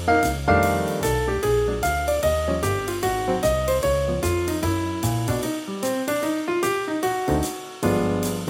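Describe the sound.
A jazz tune plays, with the piano soloist starting exactly in time with the bass and drums. Bright piano lines move over a steady swinging beat, with a couple of brief breaks in the low end before the band comes back in full.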